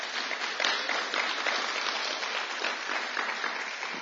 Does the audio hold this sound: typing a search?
no